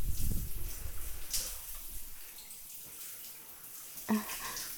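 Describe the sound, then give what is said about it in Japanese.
Warm hot-spring water splashes over hair as it is wetted before shampooing. The flow is loudest at the start and then settles into a soft, steady trickle. “まんべんなく髪の毛全体を濡らしていきます。”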